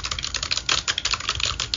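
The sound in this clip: Rapid typing on a computer keyboard: a quick, uneven stream of crisp keystroke clicks at moderate loudness, with no voices.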